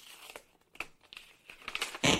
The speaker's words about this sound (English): Well, let's find out if that indeed happened. I've got the envelope here.